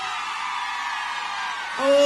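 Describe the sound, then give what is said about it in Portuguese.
Women in a concert audience in Goiânia scream in a sustained, bright wash of crowd noise that grows louder at the very end as a voice rises over it. “Cadê o grito das mulheres apaixonadas?”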